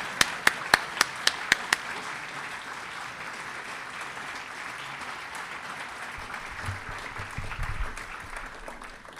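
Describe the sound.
An audience gives applause to welcome a speaker at a lecture. A few sharp individual claps stand out at the start, then sustained, even clapping continues, with a low rumble near the end.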